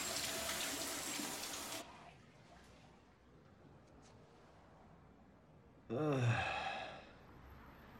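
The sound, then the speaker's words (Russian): A shower runs in a loud, steady hiss of water that drops after about two seconds to a faint wash, followed near the end by a breathy vocal sigh. “Кенни принимает душ.”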